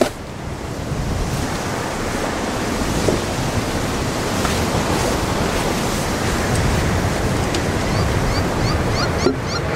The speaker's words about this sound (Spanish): El puto viento.